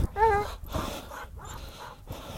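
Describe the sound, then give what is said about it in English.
A dog whimpers, giving a short, high, wavering whine near the start, followed by softer breathy noises. “Dog's getting a little crazy.”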